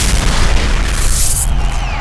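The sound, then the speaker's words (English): Heavy weapons fire at the Bellerophon in loud, continuous booming blasts that merge into one dense barrage. “Form up on me. Weapons hot. Our orders are to destroy the Bellerophon. On my mark. Target acquired. Fire! Fire! Fire!”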